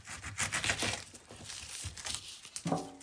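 Rasping strokes of a hand saw cutting slowly through material, a series of uneven scraping passes with crackly texture, moderately loud throughout.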